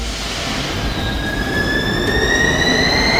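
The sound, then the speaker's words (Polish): A Warsaw M1 line metro train running: a loud, steady rumble of wheels on track, with high, thin squealing tones that rise slowly in pitch throughout. “Metro jeździ już na wszystkich odcinkach linii M1.”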